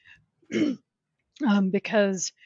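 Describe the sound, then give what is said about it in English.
A cough and throat clearing: a short, sharp cough burst, then after a pause a longer, rasping, voiced throat clear with a couple of breaks, fairly quiet and alone. “I'm sorry, I just got a cough.”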